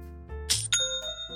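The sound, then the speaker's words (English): An online store's sale notification chime rings out as a short, bright metallic ding with clear ringing high tones, fading within about a second and a half. “That's the sound of another sale on Shopify, the all-in-one commerce platform”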